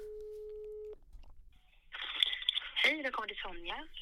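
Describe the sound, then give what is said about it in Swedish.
A phone call ringing out to voicemail: one steady ringback tone lasting about a second, then a pause, a burst of crackling line noise and a voice speaking. “Ska jag ringa henne ja, nu? Ja, gör det. Ring och fråga om hon är vaken.”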